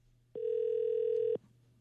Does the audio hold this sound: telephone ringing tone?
yes